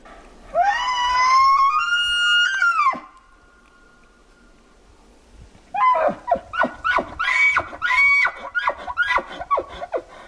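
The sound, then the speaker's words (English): An elk bugling: a long, high, whistling call that climbs and holds, then after a pause a run of many rapid, gruff grunting pulses. “Now, you mentioned bugling, which now that I've heard an elk bugle doesn't even begin to describe it. There's kind of nothing like it. Let's listen to an elk bugle.”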